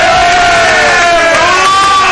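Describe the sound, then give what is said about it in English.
A studio crowd cheers to welcome a guest onto a show, a loud, continuous roar of many voices with whoops and shouted calls riding on top. “Put your hands together. Ross Tucker, welcome to the show.”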